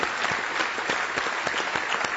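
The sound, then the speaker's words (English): A church audience gives a big round of applause for the Lord at the close of a service, with dense, steady clapping in which sharper individual claps stand out. “Give the Lord just a big old hand. Let's give him a round of applause.”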